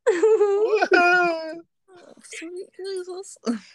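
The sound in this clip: A man's voice imitates a legendary creature's wail with a long, drawn-out moaning cry whose pitch wavers up and down. Shorter, broken wailing phrases follow after a brief pause.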